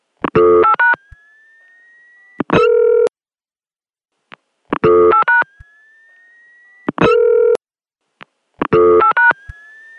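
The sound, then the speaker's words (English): Touch-tone telephone dialing on a line served by a new electronic switching office: short clusters of rapid tone bursts, each followed by a thin, sustained squealing tone that drifts slightly upward in pitch. The pattern then repeats alone. “So let's just play that last call again, the dialing out part of it.”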